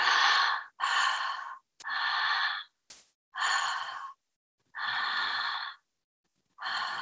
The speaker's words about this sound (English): we create this powerful breath, this connected breath to move the emotion. So right now I'm going to use my mouth so you can hear me.